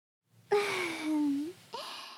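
Heavy, labored breathing from a person who is out of breath and sweating after strenuous work: a long, voiced, sighing exhale that sags in pitch, followed by the start of a second breath.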